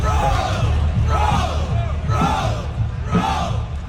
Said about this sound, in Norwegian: For nå har de også begynt å rope ro og gjøre sånne padlebevegelser under VM. Altså, hør på det her.